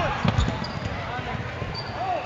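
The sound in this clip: A basketball bounces during a women's basketball game, a few quick low thuds early on under steady, continuous crowd noise.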